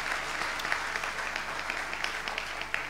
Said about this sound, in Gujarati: તાલીઓથી સ્વામીનું સ્વાગત કરો.